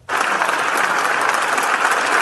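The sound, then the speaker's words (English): Applause from a standing ovation for Senator John McCain in the Senate chamber bursts in sharply and holds as a dense, steady roar of many clapping hands, loud and even throughout. “In the U.S., Senator John McCain returned to Washington and a standing ovation today, nearly a week after being diagnosed with an aggressive brain tumor.”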